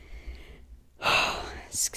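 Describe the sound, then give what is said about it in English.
A deep breath comes as a loud, airy inhale rising out of a quiet moment, followed shortly by a second, shorter breathy burst, with soft talk just before it. “Deep breath.”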